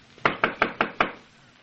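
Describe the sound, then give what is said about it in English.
Five evenly spaced knocks on a cabin door, crisp and moderately loud, followed by quiet. “The door of the cabin is open, Chico. Mm-hmm. There must be someone here. We will knock before we go in.”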